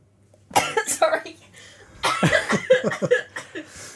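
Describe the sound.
Coughing from a bit of ginger nut biscuit caught in the throat comes in two harsh fits of several rough bursts each, separated by a short pause.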